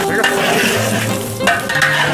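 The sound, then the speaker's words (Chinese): Food sizzling in a pan as it is stir-fried and scooped with a spatula onto a plate, a steady hiss broken by scraping strokes. “可以铲出来，铲到盘子这边。”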